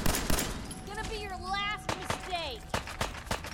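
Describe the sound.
Gunfire in a video game as a player shoots at a mirelurk, a shelled creature: several sharp, irregularly spaced bangs cut through, while a voice talks continuously over the shots.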